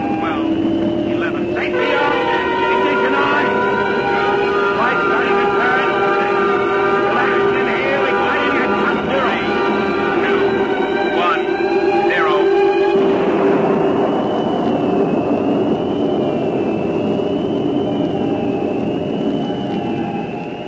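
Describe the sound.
A generator and engine run together in a loud, steady mechanical drone carrying a layered tonal whine. About two-thirds of the way through, the lower tones drop out and a single high, thin tone continues alone.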